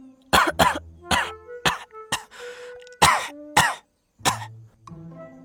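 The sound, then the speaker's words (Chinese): Violent coughing performed in an audio drama: a rapid run of about eight harsh, throaty coughs in uneven bursts, some with a raspy breath between them, loud and alone without talk. “这时就听到吴一霍突然剧烈地咳嗽了起来”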